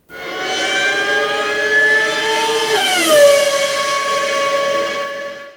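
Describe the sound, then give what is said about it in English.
A Formula 1 V12 car passes on a racetrack with a loud, high, harmonic engine scream that holds steady, then drops sharply in pitch with a Doppler shift as it goes by, continuous for several seconds. “We're doing the Doppler shift, and that was some sort of vehicle passing by. Correct, Brendan. It was a F1 V12 on the racetrack.”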